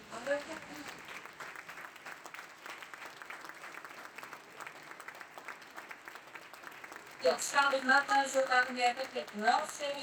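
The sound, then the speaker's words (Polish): A church audience applauds with continuous, dense clapping that holds steady and then swells louder partway through as voices cheer and call out over it. “powstańmy i oddajmy Bogu klaski za ona.”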